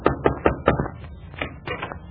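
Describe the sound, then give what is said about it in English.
Knocking on the door of the Middletown Little Theater League: a few sharp, fairly loud raps in quick, even succession, followed by softer, scattered knocks or taps. “is about to knock on the door of the Middletown Little Theater League”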